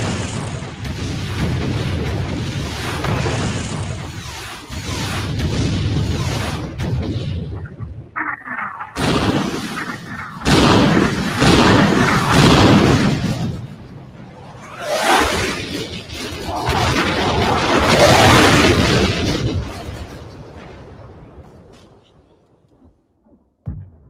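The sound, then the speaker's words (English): A missile accelerating to hypersonic speed: loud, broad roaring whooshes and booming rumbles, broken by a few abrupt cuts to near silence before the roar resumes, then fading toward the end. “That missile just went hypersonic.”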